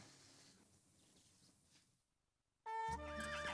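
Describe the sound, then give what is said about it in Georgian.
A tourist carriage horse in Granada, Nicaragua, gives a loud, shrill whinny that wavers in pitch. Before it there is a low murmur of street noise, then a brief lull just ahead of the whinny. “ამის გამო აქ ასობით ეტლი და ცხენი ჩამოიყვანეს, რომ ტურისტებს ასიამოვნონ.”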